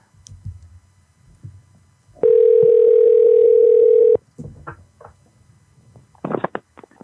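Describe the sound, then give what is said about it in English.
A telephone call ringing out: one steady, unbroken electronic ring tone lasting about two seconds, framed by faint rustling and small clicks before and after. “I'm pretty sure we tried to call Samantha earlier, but we will try one last time.”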